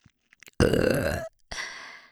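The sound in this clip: A loud, rough, deliberate burp from a woman, preceded by small mouth clicks. The single drawn-out voiced belch lasts under a second and is followed by a shorter breathy exhale.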